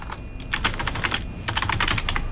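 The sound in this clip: Typing on a computer keyboard while looking something up online: many quick, irregular key clicks in two bursts separated by a brief lull, with a faint steady tone underneath and no talking.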